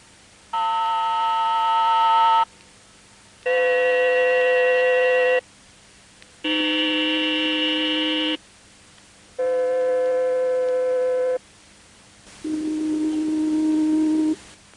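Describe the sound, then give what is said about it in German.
Five synthesized vowel spectra, A, E, I, O and U, played without natural speech movement: steady buzzing harmonic tones of about two seconds each, separated by short silences, with the last tone lower and duller. “Sie hören jetzt die Spektren der Vokale, natürlich ohne die dynamische Sprachgestaltung. A, E, I, O, U.”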